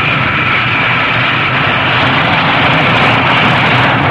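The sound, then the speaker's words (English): A loud, steady jet roar from the supersonic Concorde landing in New York City. The broad, rushing engine noise holds even and unbroken throughout, with no voices. “The supersonic Concorde makes its first landing in New York City.”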